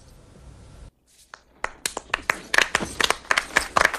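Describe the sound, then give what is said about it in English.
Applause from a watching crowd: scattered, uneven hand claps begin after a brief hush and grow steadily denser and louder into irregular clapping. “He raises his arms as they applaud”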